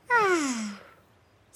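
A slow exhale out through the mouth during a calm belly-breathing exercise, voiced like a soft sigh that slides down in pitch and fades away over under a second.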